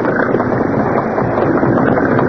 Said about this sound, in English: Boat leaving.